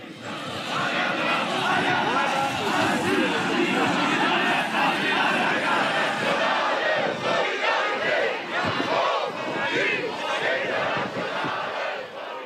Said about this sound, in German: Das war ein Rückblick auf die widersetzten Proteste in Erfurt.